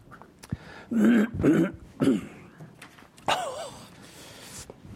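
A coughing fit with throat clearing during a sermon: three loud, harsh bursts in quick succession, followed by quieter, rasping throat sounds.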